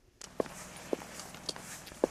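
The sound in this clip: Footsteps cross an unexcavated, closed-off part of the Pompeii ruins: a few slow, faint steps on hard ground, each a soft, separate crunch.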